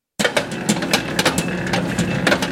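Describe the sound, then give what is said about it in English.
A bakery mixer spins dough for sufganiyot, fried doughnuts filled with jelly or custard, giving a continuous mechanical whir broken by many irregular knocks and clatters. “That's the sound of the bakery mixer, spinning the carefully measured dough for sufganiyot, a traditional Jewish donut shaped, fried, and often filled with jelly or custards to perfection.”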